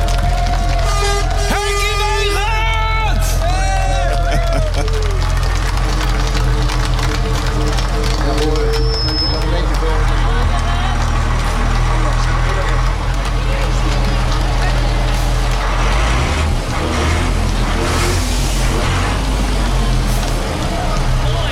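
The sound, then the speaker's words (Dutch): A yellow truck drives onto the grounds with its engine idling, giving a steady low rumble that lasts throughout while many people talk and call out over it. “Hij rijdt momenteel het terrein op. Daar is hij, de gele truck!”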